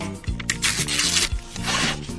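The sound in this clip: Paper rustling and tearing as an envelope is opened for a prize-quiz winner announcement, with a few scratchy bursts running together over about two seconds and no talk.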